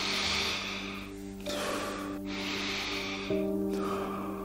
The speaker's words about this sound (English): Exhale calmly and start another round of deep, full, and calm breathing. Inhale in a wave-like motion.